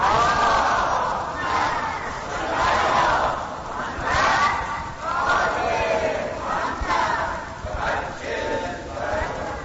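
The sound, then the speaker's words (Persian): Crowd loudly reciting salawat together at a religious gathering, many voices chanting in unison in repeated swelling surges that rise and ebb without pause. “امام حسین با همه عزیزانش و تعجیل در فرج امام زمان صلوات بلند برسید”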